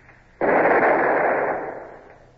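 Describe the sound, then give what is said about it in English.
A ship's long nine cannon fires from the forecastle in a single sudden, loud blast, followed by a broad roaring rumble that fades away over about two seconds. “ask Mr. Marsh to see what he can do with the long 9 on our forecastle.”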